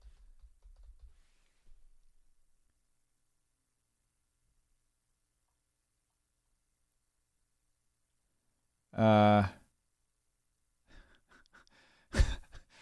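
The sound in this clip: Typing on a computer keyboard: a short burst of faint, dry clicks near the end, with a brief voiced sigh-like sound before it and quiet low rumbling at the start.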